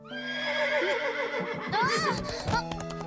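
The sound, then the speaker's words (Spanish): A pony neighs in a high, quavering whinny whose pitch arches up and then falls, followed by a short snort-like burst near the end over steady background tones. “¿Un pony? ¡Arre, pony! ¡Vamos, arre! Te daré una jugosa zanahoria.”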